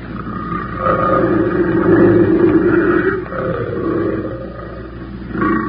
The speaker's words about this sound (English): She can't be far. Sound like she was just up the trail a piece. Keep the safety on that rifle, Benson. We're taking that cat alive.